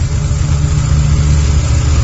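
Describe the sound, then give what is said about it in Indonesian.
Motorbike engine warming up at idle gives a steady, loud, low rumbling drone that holds an even level throughout, with no revving or change in pitch. “Dan ketika aku sedang memanaskan motor, tiba-tiba, Bang,”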